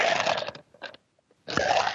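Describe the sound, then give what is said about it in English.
Someone sips iced tea from a glass with ice: two bursts of noisy slurping and ice rattling, separated by a short quiet gap with a faint clink. “Are you drinking something with ice or are you playing Yahtzee? I just had a sip of my iced tea.”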